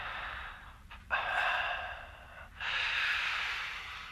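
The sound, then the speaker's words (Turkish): Breathing heard over a phone line: two long, faint, breathy exhalations, each a drawn-out hiss separated by a brief pause, with a thin, narrowband telephone quality. “Oo, nefes sesleri geliyor.”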